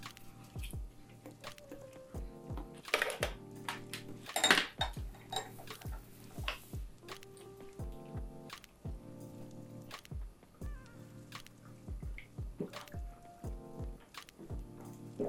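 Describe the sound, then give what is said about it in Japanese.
Clinking of dishes and cutlery while raw Miyagi oysters are eaten with lemon at an oyster bar: many short, sharp taps and clicks in an irregular rhythm, with no talk. “このオイスターバーの牡蠣です。いただきます。オイスターバーの牡蠣じゃない、宮城県産の牡蠣ですね。ちょっとレモンつけて。”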